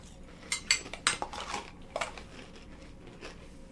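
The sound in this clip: Spoon clinking against a bowl while eating cereal with raisins and milk: a quick cluster of light metallic taps and scrapes over the first two seconds, then only a faint tap or two.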